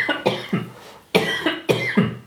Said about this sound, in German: Ich muss husten.